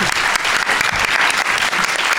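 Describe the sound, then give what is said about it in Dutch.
Applause for a departing guest: dense, continuous clapping fills the whole clip at a loud, even level, with no voices standing out. “Applaus”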